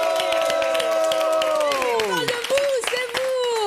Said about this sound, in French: On applaudit aussi avec nous ce soir. On a la présence d'un merveilleux public.